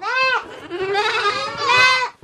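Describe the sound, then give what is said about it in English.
Eight-week-old goat kids bleat in an Amish milking barn, several loud, high, wavering cries overlapping and running almost continuously, with one kid's call trailing into the next. “These 8-week-old goat kids have a lot to say during my tour of Amish farmer Mervyn Graber's milking barn”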